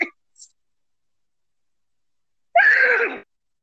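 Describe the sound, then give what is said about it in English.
A person imitates a horse with their voice in a single short, raspy, breathy burst lasting under a second. Near silence comes before it, broken only by a faint brief sound. “So that's like the Chris Walken of horse impressions.”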